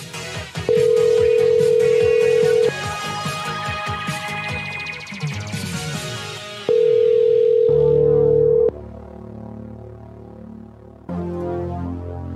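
Voicemail-style beep tones: two long, steady mid-pitched beeps, each lasting about two seconds and separated by a few seconds, sounding over busy, layered electronic musical tones.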